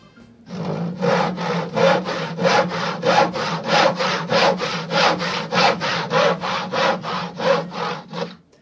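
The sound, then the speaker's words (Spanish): A handsaw cuts through a tree with many steady back-and-forth strokes, each a rasping scrape of tooth on wood, repeating in an even, brisk rhythm with no voices. “Bueno, creo que es un serrucho cortando un árbol.”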